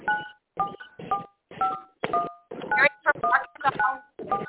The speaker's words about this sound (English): Hey, y'all want to press *6? Y'all are quitting dialing my number. Somebody's having fun. Right? Oh, man, you're trying to push my button.